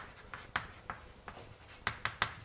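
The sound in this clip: Handwriting during a mathematics lecture on optimization: a series of faint, short scratchy strokes at irregular intervals, some sharper than others, with no talking.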